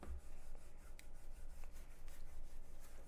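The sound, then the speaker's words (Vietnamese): A rat scratches and rattles inside a plasterboard ceiling: a quiet, unbroken run of rapid rubbing scrapes with a few sharper clicks scattered through it. “không biết sao con chuột nó lên trên được nữa. Nó cứ kêu lọc cọc suốt à.”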